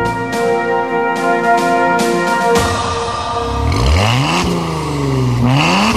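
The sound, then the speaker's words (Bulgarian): A Maserati car engine revs in an advert, with loud sweeping rises and falls in pitch that repeat a few times. “Мазерати. Официален автомобил на конкурса Мъж на годината.”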